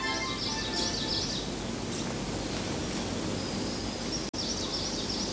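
Resident and migratory birds calling on the summit of Doi Inthanon, quick rhythmic chirping phrases near the start and again near the end over a steady hiss.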